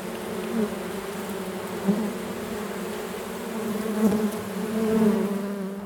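Honeybees buzz steadily around Langstroth box hives during a hive inspection: a dense, continuous drone with a few slight swells in loudness and no voices.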